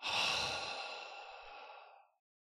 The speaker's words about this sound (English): Let's all just take a breath. Breathe in through the nose and out through a wide open mouth.